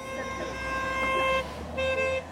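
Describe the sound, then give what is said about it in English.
A car horn honks in celebration as the car pulls up a hill, sounding two sustained, steady blasts: a long first honk and then a shorter second one. “a car pulls up the hill, honking in celebration”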